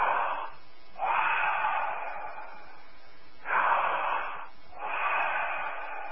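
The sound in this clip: Deep breathing, a loud airy hiss that swells and eases in several long waves with brief dips between them, heard alone without speech.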